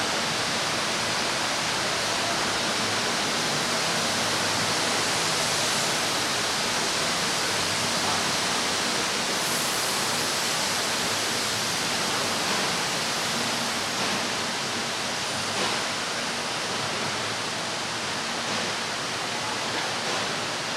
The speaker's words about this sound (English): A lot of machinery, a lot of moving parts.